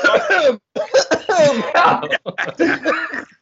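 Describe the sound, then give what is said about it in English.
A person coughs and clears their throat in several harsh, strained bursts separated by short pauses, rough and voiced, loud and close. “Don't cough. You're going to start hiccuping.”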